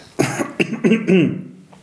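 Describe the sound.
A voice acting out a few short, throaty coughs and throat clears, with breathy bursts and voiced rasps following one another in quick succession.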